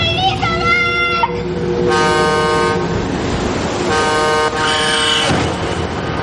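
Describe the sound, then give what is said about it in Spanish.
A truck horn honks as the truck approaches on a road, sounding several loud, brassy blasts of varying length over a constant rumble of engine and road noise. “Un camión le pita mientras se acerca.”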